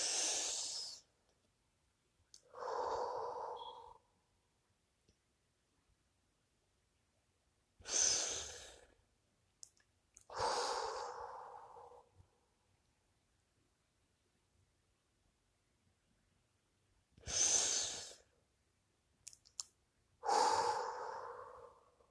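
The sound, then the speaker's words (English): A person takes three deep breaths, each a hissing inhale followed by a longer, lower exhale, with long silent pauses between the pairs. “Take another deep breath. Inhale, exhale three times.”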